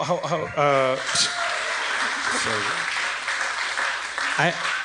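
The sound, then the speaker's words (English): Audience applause at a live comedy show at San Francisco Sketchfest 2016, a steady wash of clapping running through the whole clip beneath a person talking. “I don't want to make fun of them for applauding that”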